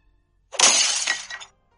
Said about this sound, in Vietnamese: Ấm trà bị Lâm Tam ném vỡ tan.